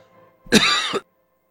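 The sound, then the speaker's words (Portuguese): A single throat clearing from a tickle in the throat, one harsh, raspy burst lasting about half a second, heard alone against near silence. “Deu uma cócega aqui na garganta.”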